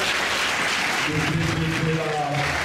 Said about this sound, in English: Let's give him a hand.